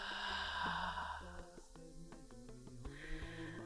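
A deep inhale and exhale, heard as two soft breathy swells, the first longer and the second shorter and fainter, over steady tonal music underneath.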